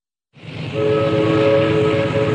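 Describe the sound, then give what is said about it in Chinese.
Horn of a passenger train bound for the provincial capital, a loud, steady blaring chord that starts abruptly after a short silence and holds, with a rumbling undertone beneath it. “杨佩佩在第三天早晨坐着开往省城的火车，随着丈夫去了省城。”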